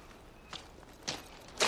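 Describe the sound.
Footsteps of someone walking by the sea: three soft, evenly spaced steps, each a brief scuffing crunch, the last a little louder than the first.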